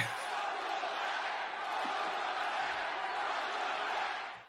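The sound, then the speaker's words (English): A crowd chant plays as a welcome-back cheer for a returning guest: a dense, sustained roar of many voices that holds steady and loud for about four seconds, then cuts off. “can you give him the welcome back chant now? Let's hit it.”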